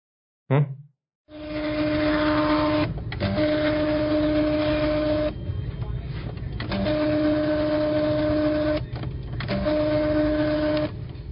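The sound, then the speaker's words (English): A voice imitating a credit card receipt printer: a brief vocal sound, then a long, loud buzzing whir held at a steady pitch for about ten seconds, broken by a few short pauses. “How about a receipt printer? You know those credit card machines?”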